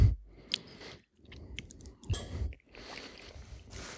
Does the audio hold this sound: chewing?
yes